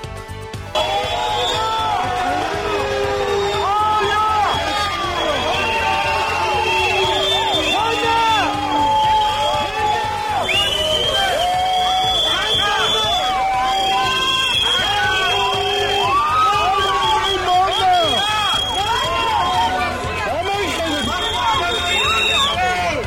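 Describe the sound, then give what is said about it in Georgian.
Protesters outside Georgia's parliament shout and whoop at ruling-party deputies leaving the building: a sustained, loud din of many raised voices, with rising and falling yells over a constant crowd roar. “დემონსტრანტები პარლამენტიდან გამოსულ მართველი პარტიის დეპუტატებს შეძახილებით ხვდებიან. მოვისმინოთ ეს ხმები.”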